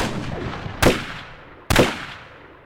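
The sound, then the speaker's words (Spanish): Two sharp gunshots as a man is shot at close range. Loud, abrupt reports with brief decaying tails, spaced about a second apart over a steady noisy background. “Ha disparado con la misma seguridad que la mató a ella.”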